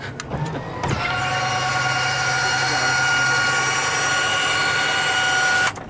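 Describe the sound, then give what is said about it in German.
The canopy of an F-16 fighter jet opens with a steady electric motor whine. A few clicks come first, then a constant, fairly loud hum runs for about five seconds before cutting off abruptly. “So, I will open the canopy of the F-16.”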